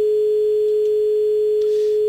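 A telephone line tone after a caller drops off a phone-in show, one steady, unbroken mid-pitched hum that holds loud and level throughout, with a few faint clicks.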